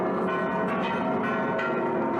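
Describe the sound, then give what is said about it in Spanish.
Bells of Mexico's Metropolitan Cathedral ring in unison at the opening of a jubilee. Overlapping clangs form a dense, continuous wash that stays loud and steady throughout. “Las campanas de la catedral resonaron al unísono con las de toda la arquidiócesis.”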